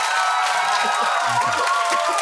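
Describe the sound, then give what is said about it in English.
An audience gives a brief round of applause at a live show: a continuous wash of clapping with some cheering, steady and fairly loud for about two seconds. “Okay, so by round of applause, who has never fucking seen this object in their lives?”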